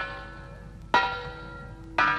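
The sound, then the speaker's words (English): A front doorbell sounds twice, two bright bell-like strikes about a second apart, each ringing on with a sustained tone that slowly fades. The chimes are fairly quiet and stand alone. “Now I've rung the front doorbell.”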